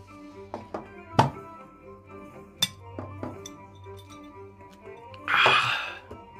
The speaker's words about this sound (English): Pours one last drink into his glass.